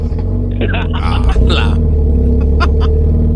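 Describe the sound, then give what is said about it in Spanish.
A car fitted with aftermarket exhausts starts in cold weather: a brief burst of start-up noise, then a deep, throbbing low engine rumble that holds steady, with a voice briefly heard over it. “Es que le puse unos escapes, pues, para que se vea que arranca perrón, mira.”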